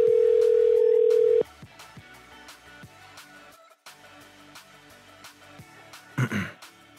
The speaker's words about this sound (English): Dial the number.